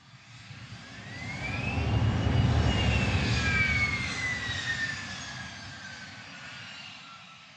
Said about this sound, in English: All right, so now it's time for the takeoff.